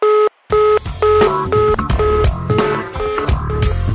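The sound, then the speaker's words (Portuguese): Telephone tones sound as a call is transferred: a short electronic beep, a brief pause, then a long run of rapid, overlapping dialing tones in changing pitches. “estamos transferindo sua ligação para nosso atendimento”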